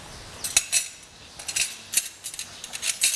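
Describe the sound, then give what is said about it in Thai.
Metal spoon clinking and scraping in a pot while pounded curry paste is dissolved in a little soup: many light, irregular taps at a quiet level, with no voices. “ตักน้ำซุปมานิดนึงนะคะมาละลายเครื่องที่โขลกไม่งั้นเดี๋ยวจะเป็นก้อนนะคะคนให้ละลายนิดนึง”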